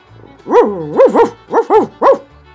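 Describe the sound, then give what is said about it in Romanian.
A voice imitates a dog barking, as the dog in the Bremen Town Musicians folk tale. It gives about six tonal, arching bark syllables in quick groups, loud and with no other talk. “câinele lătra”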